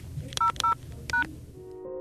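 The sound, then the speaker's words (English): Touch-tone keypad beeps dial an extension number and pound key on an airport tour phone line: three short, bright tone bursts in quick, slightly uneven succession, followed by a soft hum. “For the Art Phone, press 200 and a pound sign.”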